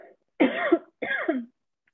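Two raspy coughs from a scratchy throat, each a short rough burst, with a brief pause between them and silence after.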